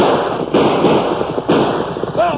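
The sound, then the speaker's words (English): Gunshots in a radio drama shootout: a few sharp, loud cracks over a rough, noisy background. “It's going to be more than an argument, Tonto. Guns will be blazing.”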